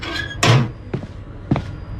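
A flat's front door opening on a third floor: three brief clunks spaced by short pauses, the first the loudest and fullest, the next two softer knocking thuds.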